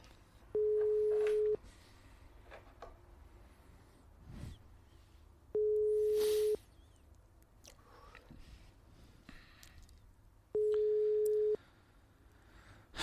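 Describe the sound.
An unanswered phone call produces a ringback tone: three long, steady, evenly spaced beeps with quiet pauses between them, and no voices.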